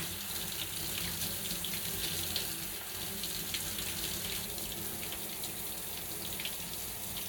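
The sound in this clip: Water runs steadily to rinse one side, a continuous splashing stream that holds at an even, fairly loud level throughout with no talk.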